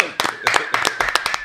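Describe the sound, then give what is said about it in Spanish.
Quick, uneven clapping from a few people at a boy's birthday party fills about a second and a half, and a voice carries through the claps. “Un aplauso para Matthew.”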